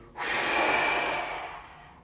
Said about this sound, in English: Take that inhale through the belly, lateral expansion through the ribs, into the chest, into the head. Force some exhale out, let out some stress.